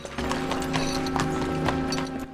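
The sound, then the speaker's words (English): A horse arrives with hooves clip-clopping in a steady stream of many quick, crisp beats at even loudness throughout. “Robin notices Marion arriving on her horse.”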